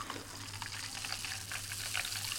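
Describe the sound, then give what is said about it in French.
Champagne is poured into a coupe glass, giving a continuous fizzing, crackling hiss of liquid and bubbles over a low steady hum. “Voilà, je vais mettre encore une coupe de champagne.”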